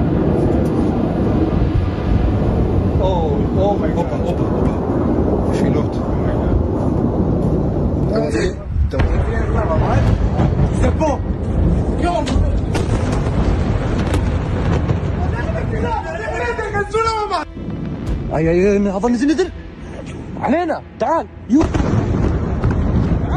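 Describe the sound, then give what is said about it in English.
Deep booms and continuous rumbling from a large-scale ballistic missile attack over Tel Aviv, Israel, loud and sustained with repeated heavy blasts as people talk over the noise. “There's currently a large-scale ballistic missile attack that is targeting the northern part of Israel.”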